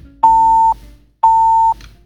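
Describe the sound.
Two steady, loud, mid-pitched tones sound on a phone line as a caller's call drops. Each lasts about half a second, with a second-long gap between them.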